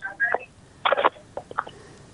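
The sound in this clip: Brief electronic phone tones and beeps as a caller's line is connected, arriving in a few short bursts.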